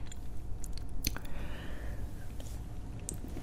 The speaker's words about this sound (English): And I've been eating raspberries like a ton these last few months, but this is the first time I've tasted like this.